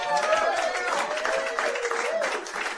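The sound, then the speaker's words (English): Audience applause at a live show in the Brown County Inn bar, a steady, even wash of clapping from a modest crowd with a voice rising briefly above it. “Let's give it up one more time for the Brown County Inn.”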